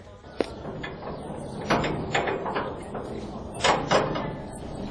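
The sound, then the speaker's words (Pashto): A prison door being opened: a sharp click, then a few scraping, rattling knocks as the door is worked open, moderately loud over a low background hum. “ضابطه دروازه خلاصه کړه”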